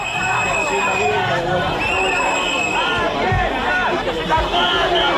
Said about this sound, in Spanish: Este es el sonido de esta hora en Ceuta, 2 de septiembre, Día de la Ciudad Autónoma, día en el que la Federación de Municipios y Provincias convoca concentraciones en apoyo al pueblo ceutí.